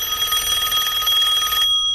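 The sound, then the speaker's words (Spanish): A telephone rings for an incoming call with a steady, bright, warbling electronic trill that continues without a break, then stops abruptly just before the end, leaving silence. “Sí, tenemos llamada, dígame.”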